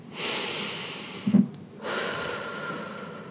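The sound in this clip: A person takes a deep breath: a long, airy drawn breath, a short snort-like catch, then a second long, steady breath. The breaths are fairly loud and no words are spoken.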